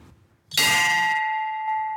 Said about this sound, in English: Worshippers take their shoes off and leave them outside before entering. Then they ring a bell.